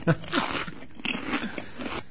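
Someone chewing crunchy food over a phone line, with a thin, narrow tone: a loud first bite, then a few irregular crunches and wet mouth noises.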